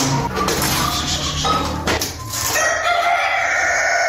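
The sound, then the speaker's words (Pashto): Domestic chickens cluck and a rooster crows at a home flock kept in the Sar Murghab area of Tarinkot, Uruzgan, where a viral disease has struck the birds. The clucking is loud and steady throughout, and crowing tones rise out of it toward the end. “نوراغه په خپل کور کې د کورنی چرګانو په پالنه بوخت دي”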